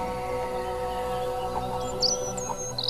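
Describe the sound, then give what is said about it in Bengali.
Birds call at dusk before returning to their nests: a few brief, high chirps in the last second, over a steady, low tonal background. “চারিপাশে এক শান্তির পরিবেশ পাখির ঘর ফেরার আগে জোরে জোরে গান”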